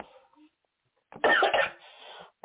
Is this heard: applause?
no

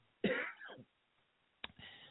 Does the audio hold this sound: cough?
yes

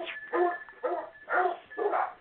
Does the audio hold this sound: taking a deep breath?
no

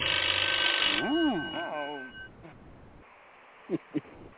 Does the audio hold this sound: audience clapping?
no

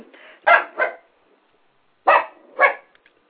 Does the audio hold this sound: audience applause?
no

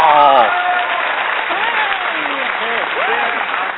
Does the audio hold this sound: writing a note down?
no

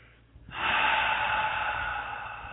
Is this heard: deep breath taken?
yes

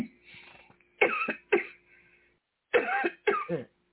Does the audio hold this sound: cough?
yes

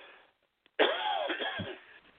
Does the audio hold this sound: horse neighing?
no

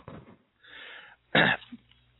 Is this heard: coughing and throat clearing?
yes

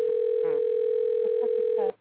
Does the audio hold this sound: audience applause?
no

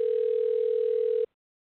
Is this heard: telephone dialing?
yes

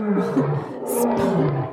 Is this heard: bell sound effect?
no

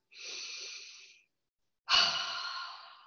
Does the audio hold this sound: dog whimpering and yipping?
no

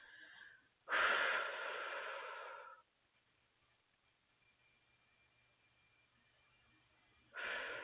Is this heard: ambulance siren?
no

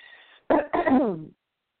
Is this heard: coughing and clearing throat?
yes

